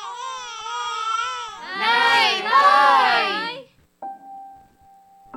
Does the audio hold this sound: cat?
no